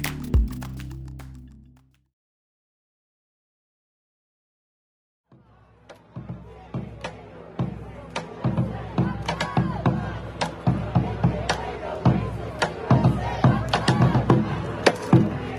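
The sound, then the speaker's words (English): Anti-racism protesters drum and chant in the centre of Portland. After a quiet gap, sharp rhythmic drum hits build steadily over a continuous rumble of crowd voices. “What you're hearing is Black Lives Matter protesters gathered in the centre of the US city of Portland. There's drumming and chanting.”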